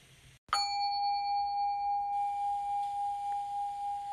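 A Buddhist altar bell is struck once, giving a bright metallic ding that rings on as a clear, steady tone with a gentle wavering pulse and barely fades over several seconds, with no talk.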